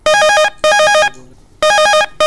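A telephone rings for an incoming call on a phone-in programme: loud, bright, tonal ring bursts arrive in pairs with short gaps, three full rings plus a fourth just starting, with no talk.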